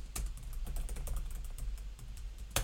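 Fingers type on a computer keyboard in quick, irregular clicks, with one sharper keystroke near the end. The tapping is faint and heard alone, without talk.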